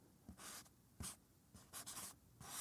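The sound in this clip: Handwriting as a name is signed with a flourish by moonlight: soft, scratchy pen-on-paper strokes come in a few separate bursts, faint and alone with no voices.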